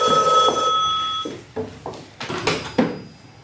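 A telephone rings at an inn with a bright, steady bell tone for just over a second. A series of dull clunks and knocks follows once the ringing stops.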